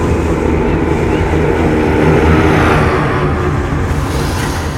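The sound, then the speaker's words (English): A giant Junkers aircraft flies with a loud, steady, rumbling engine drone and a broad noisy hum that holds throughout. “The giant aircraft sails through the air.”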